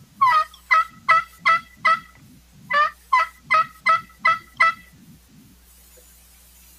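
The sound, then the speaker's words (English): Turkey hen yelps imitated on a tube call: two runs of sharp, raspy yelps, about four, then a short pause, then about six more, each run ending in a roll-off, over a faint low pulsing underneath. “Sound like a turkey right there. That's really good. That's awesome. For something as simple as a tube call”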